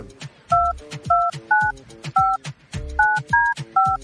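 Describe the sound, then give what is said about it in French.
Touch-tone dialing of a telephone number to call a contest winner: seven loud, clear dual-tone beeps at a steady, unhurried pace, with low background noise between them. “on va composer le nom de la personne, pas le nom, le numéro de la personne gagnante”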